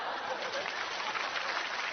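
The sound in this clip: Applause in a home skit in which a child urges her father to clap. The applause is a soft, steady wash of clapping with no distinct single claps, lasting about two seconds.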